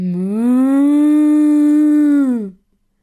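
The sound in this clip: A human voice imitates a cow's moo in one long, loud, sustained low call at a steady pitch, dipping slightly at the very end before stopping, with nothing else heard.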